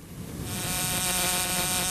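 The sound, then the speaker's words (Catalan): A housefly buzzing in a steady, continuous drone with a fixed whining pitch, fairly faint and alone with no talk. “És que m'ha semblat sentir una mosca.”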